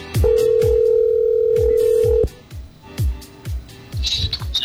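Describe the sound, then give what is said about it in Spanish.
An outgoing phone call rings on the line: one long steady ringback tone, then shorter pulses, over a repeated rhythmic musical beat. “vamos a llamar ya mismo. Ya está entrando la llamada. A ver si contesta.”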